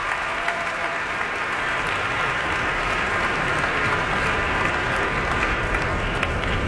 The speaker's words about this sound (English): The audience certainly appreciative and calling her back to center stage here at Carnegie Hall.